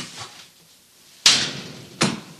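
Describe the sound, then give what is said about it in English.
A jail cell door being opened, heard as two sharp, abrupt clunks a little under a second apart, the first louder, after a faint soft knock at the start. “Hey, Bull, come open this door. He's still drunk. Open it yourself. It ain't even locked.”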